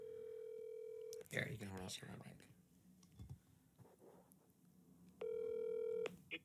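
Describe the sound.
Telephone tones sound while dialing in to a call: a steady, even tone, then a stretch of talk, then the same steady tone again.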